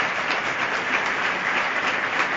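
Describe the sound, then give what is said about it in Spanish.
An audience applauds the director of the Ciudad de Jaén symphonic band at a Holy Week proclamation event in Jaén. The clapping is steady, even and moderately loud throughout. “Y ahora se vuelve hacia el público y agradece y agradece estos aplausos.”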